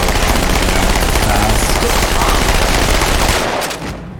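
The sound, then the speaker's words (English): Rapid automatic gunfire in a first-person shooter video game: a loud, unbroken burst of shots, dense and rattling, that stops shortly before the end and leaves a brief fading tail. “C to dual wield, E to fire this gun.”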